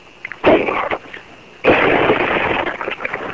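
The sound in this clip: A car's back window being smashed: two loud, sharp bursts, each followed by a sustained, crackling spray of noise that lasts until the next burst or the end.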